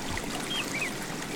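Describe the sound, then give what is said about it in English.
River water flowing along the Avon River in Stratford, a steady, even rushing wash that holds at a constant moderate level throughout with no voices. “Hear that? That's the sound of your mornings at River Gardens Retirement Residence. Nestled along the Avon River in Stratford, next door to Gallery Stratford”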